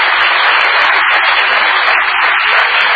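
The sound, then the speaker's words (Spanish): Applause from an audience greeting guests who are being introduced at a gathering: a dense, steady wash of clapping with a muffled, narrow tone, continuing evenly throughout. “vamos Danielito, a saludarlos y a aplaudirlos”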